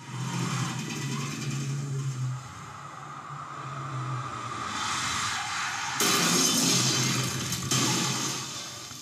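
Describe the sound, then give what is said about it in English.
A car with a stunt driver crashes into a wall: engine noise rumbles and builds, then a sudden loud crunching impact bursts out, followed by sustained harsh noise. “I'm going to show you this crash.”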